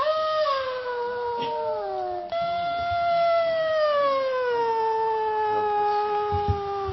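Wolves howling: long, loud, sustained howls that slide steadily downward in pitch, with a short break partway through before another drawn-out howl glides lower, and no talk.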